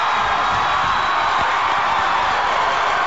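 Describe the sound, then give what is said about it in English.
An election night crowd packed in front of a stage at the Crowne Plaza in St. Paul roars and cheers as states are called for Barack Obama, a loud, continuous, dense crowd noise. “the 12 or so deep people standing right in front of the stage. Lots of cheering.”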